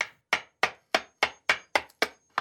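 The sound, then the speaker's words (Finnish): Sharp hammer knocks on a man's teeth, struck with a hammer a renovation worker left behind: a quick, fairly even run of crisp, dry raps, about three per second, each ending in a brief decay. “näki ikkunalaudalla remonttimieheltä unohtuneen vasaran. No tällä onnistuu.”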